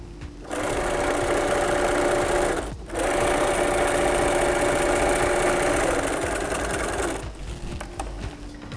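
Sewing machine stitching a side seam with a 2 cm backstitch at a corner: a steady, fast mechanical whir runs for about seven seconds, broken by one brief pause, then stops.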